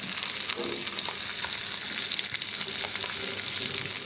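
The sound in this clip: Thick pork chops fry on a Blackstone griddle, giving a steady, bright sizzle and hiss that stays even and unbroken throughout, with no talk.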